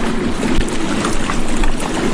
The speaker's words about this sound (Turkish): Binlerce balıkçı teknesi açılarak demir aldı.